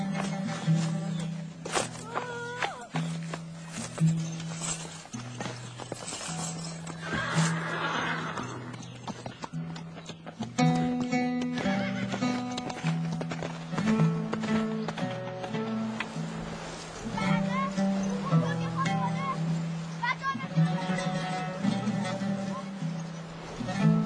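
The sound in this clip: A horse neighs and its hooves clop as a rider leaves on it, the sounds continuing steadily over a sustained tonal background.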